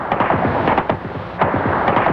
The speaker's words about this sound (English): Sarajevo continues to be pounded by Serb gunfire, causing yet another suspension in aid flights.